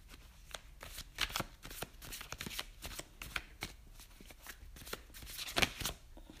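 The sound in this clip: Tarot cards are shuffled and handled quietly, giving many soft riffling flicks and slaps in an uneven rhythm.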